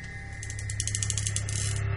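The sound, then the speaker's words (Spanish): A revolver cylinder being checked in a bedroom gives a rapid, even run of light metallic clicks over a steady low hum, faint and with no voices. “el revólver de debajo de la cama. Comprueba el tambor.”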